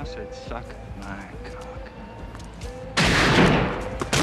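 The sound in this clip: A single loud gunshot in a film scene, a sudden sharp blast that follows a few seconds of people talking and rings out for about a second before fading.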